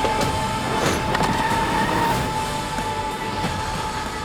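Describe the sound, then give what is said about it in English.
Rumbling, train-like effects from the Renfield film trailer: a dense low roar with a steady mid-pitched tone running through it, unbroken and without speech for about four seconds. “That is a clip from the Renfield trailer.”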